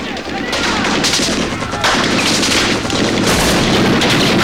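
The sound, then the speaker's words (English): Gunfire from soldiers shooting blindly into wooded, tree-covered hills. Loud rapid shots and sustained overlapping volleys roar through the whole stretch without a break. “His military men train their weapons blindly on the hills.”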